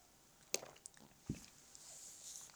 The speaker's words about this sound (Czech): To byla trochu delší ukázka, já se napiju.